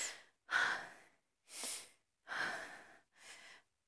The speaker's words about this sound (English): Let me take deep breaths, I guess.